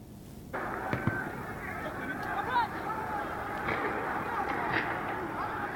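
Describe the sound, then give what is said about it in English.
Gunfire from live ammunition fired in a street: a few sharp, impulsive bangs stand out over a constant, dense wash of street and crowd noise with voices. “this shows the violence, live bullets in the street, live ammunition, fatalities supposedly”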